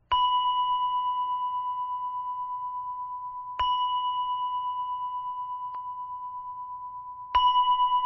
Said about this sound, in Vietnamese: 3 tiếng chuông này không phải chuông của chùa. Chuông này là chuông của miễu